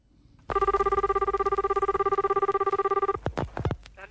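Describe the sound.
A telephone rings for a prank call, one steady trilling ring with a fast pulsing warble lasting a couple of seconds, then it cuts off and a few brief squeaky chirps follow.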